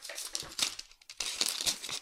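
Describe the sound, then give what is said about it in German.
Paper cut lengthwise along the midline of a Möbius strip, crisp crinkling and tearing rustles in two close bursts separated by a brief pause. “Etwa wenn man das Möbiusband längs entlang der Mittellinie aufschneidet. Ich schneide jetzt das Teil in der Mitte durch.”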